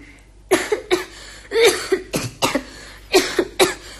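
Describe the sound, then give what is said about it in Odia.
Coughing in several loud, harsh fits, each a quick cluster of two or three sharp bursts with short gaps between, and no talk alongside. “କଣ ପୁଣି କାଶ? ହଁ ପରା, ମୋର କାହିଁକି ଆଜି ମଝିରେ ମଝିରେ କାଶ ହଉଛି”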